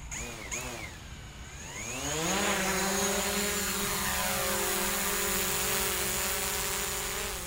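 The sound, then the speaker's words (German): Two drones, one very large and one very small, take off near an airport. Their electric motors wind up in a rising whine that climbs in pitch, then holds as a loud, steady buzzing drone. “luxuriöse Ausstattung an Drohnen dabei, nämlich eine sehr große und eine sehr kleine. Und ich glaube, die lassen wir mal abheben, oder?”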